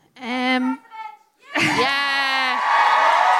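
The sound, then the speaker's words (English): Audience cheering and shouting encouragement at a live event, a raised harmonic voice first, then a sustained, loud burst of crowd voices lasting to the end. “Lynn, the audience are encouraging you to run for president.”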